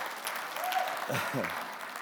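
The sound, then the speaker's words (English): An audience applauds a speaker with a steady, moderate patter of clapping hands, and a voice briefly talks over it partway through. “That should be having you applaud without even knowing what it is right there.”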